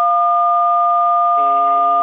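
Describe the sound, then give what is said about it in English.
Telephone tones on a radio call-in line: a loud, steady two-pitch electronic tone sounding throughout, with more tones layering on near the end. “Anybody that calls in, please make sure your hands or your face or anything is away from buttons. We want to hear your voice. We don't want to hear dial tones, any noise at all.”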